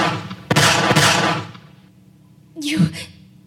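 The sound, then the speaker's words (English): A gunshot fired at a person: a sharp, loud bang with a second quick hit and a decaying rumble, followed after a pause by a short vocal sound. “You shot me. I had to, okay? I freaking had to!”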